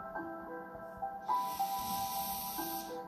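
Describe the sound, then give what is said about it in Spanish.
A long breath is drawn in as a steady, airy hiss that starts about midway and lasts to the end, over soft sustained background tones. “Quédate en apnea por 5 segundos. Inhala.”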